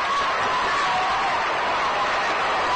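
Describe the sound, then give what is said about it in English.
A ballpark crowd applauds as Don Drysdale comes to the plate in the fourth inning of a 1957 Cardinals–Dodgers game, a steady, muffled wash of clapping and crowd noise at an even level throughout. “deserves the round of applause he gets as he comes up to the plate right now.”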